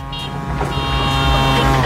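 A tuk-tuk drives past with a buzzy, puttering small engine. The motor drone is loud and steady and grows slightly louder toward the end.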